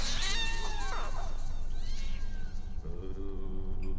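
Small kittens meowing as they creep under a table, a few thin high mews with sliding pitch over a rough, noisy background.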